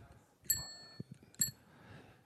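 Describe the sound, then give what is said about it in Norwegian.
Two bright metallic rings of an old bicycle bell from the speaker's first bike, struck once and then again about a second later, with voices talking quietly between the rings. “Og så her, det her ringeklokka til den første sykkelen min.”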